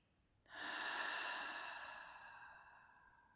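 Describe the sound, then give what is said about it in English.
A deep breath is taken during a guided meditation, breathing in through the nose and out through the mouth. It is quiet overall: a soft, breathy exhale swells suddenly, then slowly fades over about three seconds. “Start with a deep breath in through your nose and out through your mouth.”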